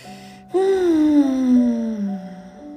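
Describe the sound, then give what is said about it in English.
A long, voiced deep breath out, heard alone as a moaning sigh that begins abruptly, holds steady and slowly drops in pitch over about two seconds before fading. “One more deep breath.”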